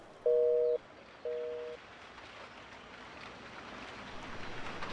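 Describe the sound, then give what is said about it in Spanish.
Rain falling in a steady, even hiss that thickens slightly toward the end, with two short flat electronic tones near the start. “Ay, la lluvia está rica, vamos.”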